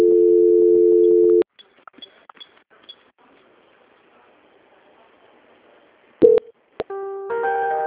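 Telephone tones during a call transfer: a steady tone holds for about a second and a half, then near silence with faint clicks, a short beep, and a new tone at the end.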